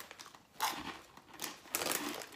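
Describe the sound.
Quiet crunching of flamin' hot flavoured crisps being eaten, in about three crisp bursts of brittle crackling with soft rustling between them.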